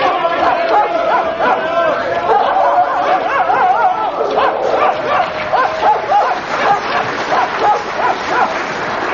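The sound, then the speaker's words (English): Dogs barking, yipping and whimpering as they leap into a river and swim across, a dense, continuous chorus of many high, overlapping yelps that lasts the whole clip. “why are the dogs jumping straight into the river and swimming across?”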